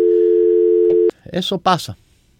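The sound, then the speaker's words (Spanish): After a dropped call, a steady telephone dial tone holds one pitch for about a second, then cuts off abruptly. A person speaks briefly right after. “Oh, se cayó la llamada.”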